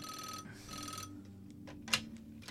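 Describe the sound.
A telephone rings for an incoming call on a live call-in show, with two bright, tonal ringing bursts followed by a few quieter clicks and ticks.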